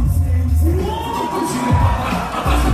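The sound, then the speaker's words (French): A concert crowd at the Olympia roars with loud, sustained cheering, whoops and shouts as rappers are joined onstage by a surprise guest, the noise staying intense throughout. “Ça se voit que le public ne s'y attendait vrai, vraiment pas. Et donc il a explosé de joie.”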